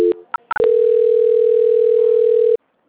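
Telephone line tones during a call transfer: a few brief beeps open, then a single steady mid-pitched tone holds for about two seconds before cutting off abruptly into silence.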